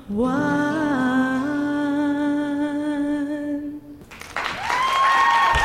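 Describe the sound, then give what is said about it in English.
Audience applause erupts right after a live studio song performance. Sustained musical tones and held notes fill the first four seconds, then broad clapping abruptly takes over and swells toward the end, with a faint tone lingering beneath it. “Look, we've even got the applause happening.”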